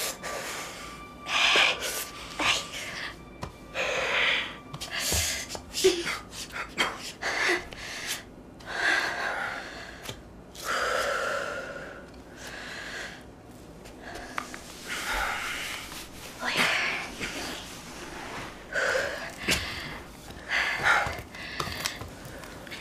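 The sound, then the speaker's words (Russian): A person breathes in and out heavily: many loud, irregular gasping inhales and rushing exhales follow one another over about twenty seconds, with a few sharp snorting breaths. “Дышите, вдох, выдох.”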